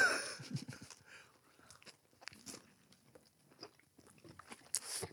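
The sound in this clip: Chewing on a vegan burger: soft, wet mouth sounds with irregular crunchy bites and smacks, fairly faint, coming in uneven bursts across the whole stretch with no talking.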